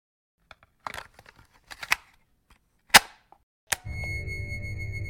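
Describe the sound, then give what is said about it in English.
Clicks and clunks of a tape being popped into a player: several light clicks, a sharp snap, then a firmer clunk. A steady low mechanical hum with faint tones follows. “So let's pop in the synopsis tape.”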